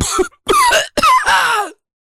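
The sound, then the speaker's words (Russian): Harsh, voiced coughing as a man's voice breaks off, a few rough bursts separated by brief gaps, loud and raspy with no words. “Его голос потонул в кашле.”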